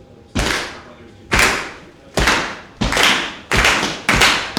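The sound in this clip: A wrestling crowd starts a slow clap. Six loud, ringing claps come in a steady rhythm and gradually speed up, each one trailing off before the next.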